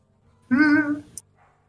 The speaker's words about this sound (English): My stray dog has come back.